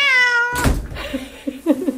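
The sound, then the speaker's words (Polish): A cat meows once, a loud, high harmonic cry that dips slightly in pitch, followed by softer scattered noises. “O, dzień dobry, kotu. I jest kot. O, przywitał się z słuchaczami.”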